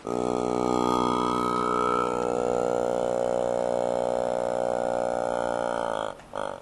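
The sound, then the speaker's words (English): A motorized mouth made of clear plastic bottles mimics Tuvan throat singing: a steady, buzzing drone rich in overtones, with a whistling overtone at the start, ending in a brief stutter and break. “Tuva is a motorized mouth made of clear plastic bottles that mimics the sounds made by Tuvan throat singers.”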